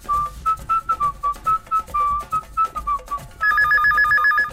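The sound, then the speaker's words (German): A telephone rings in the morning with a rapid, repeating electronic trill that enters loudly after a whistled melody played over a rhythmic beat. “Am nächsten Morgen weckte mich der Anruf von Höttges.”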